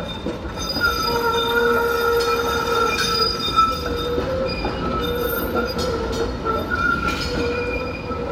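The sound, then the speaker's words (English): Streetcar wheels squeal through a newly built track curve into the Distillery District near Corktown residences, a loud continuous screech of several steady overlapping tones held for the whole clip over a low rolling rumble, with no talk. “This is the sound of a streetcar going through the turn.”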